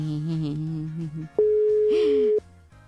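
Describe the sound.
A telephone call tone while waiting for an answer, a single steady electronic tone lasting about a second, follows a speaking voice, and a voice briefly overlaps it.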